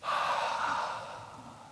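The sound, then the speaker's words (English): A single deep breath blown out by a person: a breathy hiss that starts strong, then slowly fades over about two seconds, with no talk around it. “Maybe just take a deep breath and”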